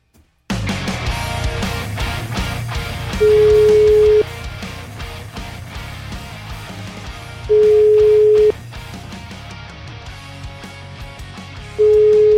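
Telephone ringback tone while placing a call in Italy: a steady, pitched beep of about one second sounds three times at even intervals, the last one cut off, over a continuous background bed.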